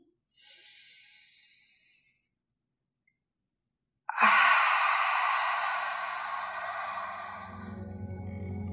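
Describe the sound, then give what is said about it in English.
A person exhales, pauses in silence, then breathes in deeply. The soft, airy exhale is followed by a louder, longer, rushing inhale, part of a guided meditation breathing exercise. “It will sound something like this. Exhale completely. Go ahead, breathe in.”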